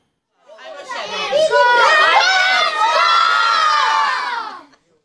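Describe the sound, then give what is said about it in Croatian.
Many children shout and cheer joyfully at a festive reception celebrating a children's magazine anniversary, a loud, continuous wash of excited young voices that swells quickly and stays strong before cutting off near the end. “Radosni povici Mališana i igra redovito prate susrete s Hrvatskom.”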